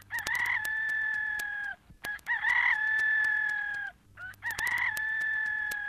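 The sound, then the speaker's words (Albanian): A rooster crows three times in a row. Each call is a loud, high cock-a-doodle-doo with a sharp opening and a long, steady held note, separated by brief pauses, with no talk over it. “e me njëherë knoj gjeli”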